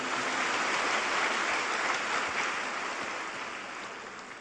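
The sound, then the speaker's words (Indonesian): An Indonesian gathering applauds two people after a Quran recitation. The clapping is a continuous, dense wash of sound that stays even at first and then slowly fades toward the end. “Sekali lagi kita berikan aplaus buat beliau berdua.”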